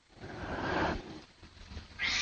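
A cat in a studio gives a couple of meows: a drawn-out, rough cry early on, then a sharper, brighter call at the very end, over soft background noise.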